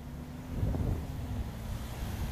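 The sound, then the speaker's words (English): Wind rushes outdoors on a hot, breezy day beside busy traffic, a steady low rumbling roar that buffets continuously with a slight swell near the start and no voices. “It's a bit breezier out. You can feel the wind rushing”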